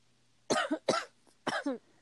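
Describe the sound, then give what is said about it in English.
A few harsh coughs in quick bursts, some doubled, loud and alone with no talk around them. “excuse me. Coughing. I'm very much coughing.”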